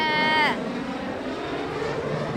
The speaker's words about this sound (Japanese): え、飛行機近 っ、うわ すごい、あ、あ、飛行機近 っ